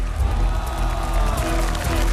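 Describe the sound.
An audience at a family competition show applauds in a dense, steady burst of clapping mixed with some cheering, while a voice talks over it throughout.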